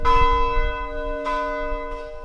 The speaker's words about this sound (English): Every night for more than a year, someone from the congregation has climbed the narrow staircase at the front of the church to ring the 150-year-old bell.